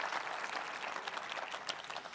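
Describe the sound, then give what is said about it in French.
Applause from a church audience at a Sunday service, honoring the musicians and team: a steady, dense patter of many hands clapping, faint and even throughout, with no voices. “Bonne main d'applaudissements pour Gilberto, Mylène, toute l'équipe, tous les musiciens qui nous bénissent dimanche après dimanche.”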